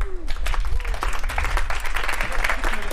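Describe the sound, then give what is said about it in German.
An audience breaks into steady applause, dense clapping that holds at an even level throughout with some voices mixed in. “Come on. Applaus für Sean.”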